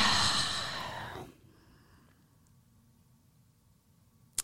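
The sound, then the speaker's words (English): A slow, deep breath from a person: a long, airy rush of breath that fades over about a second into near silence, ending with a soft click. “I'm going to take a moment to just breathe.”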